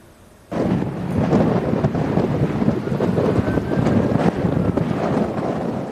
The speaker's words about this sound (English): And you can hear the monstrous winds that responders are fighting.